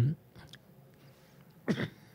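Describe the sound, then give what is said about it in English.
Throat clearing: two short, rough, guttural bursts, one right at the start and a stronger one near the end, with a quiet stretch between them. “clear my throat”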